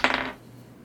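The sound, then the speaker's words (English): Dice rolled onto a table during a tabletop game give a brief bright clatter of a few quick clicks, then fall silent. “Grab my dice. The right one, there we go.”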